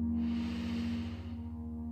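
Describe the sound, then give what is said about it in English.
A slow, deep inhale during a guided fertility meditation, lying down. The soft airy rush lasts about a second over a steady low humming drone, then fades away while the drone continues. “At this time, lie down in a comfortable position. And let's take a deep breath in.”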